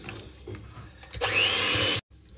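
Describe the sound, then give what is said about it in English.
An electric whisk whips egg whites with sugar toward soft peaks: a loud, steady motor whir bursts in for under a second and cuts off abruptly, with quieter kitchen background before and after. “Two tablespoons of sugar to the egg whites. And then we're gonna whisk them up as though we're making a meringue.”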